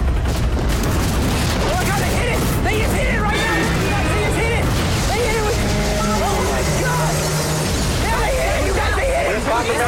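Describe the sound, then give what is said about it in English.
Explosions from a stealth bomber dropping many bombs onto a creature in a video game: a dense, continuous rumble of booms and bursts, with people shouting and talking loudly over it throughout. “A stealth bomber drops a multitude of bombs onto the creature.”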